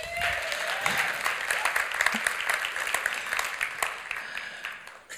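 Audience applause welcomes guest pastors at a church service, a thick, continuous patter of many hands clapping that stays level before tapering at the very end.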